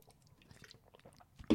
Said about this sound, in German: Jetzt muss ich mal was trinken.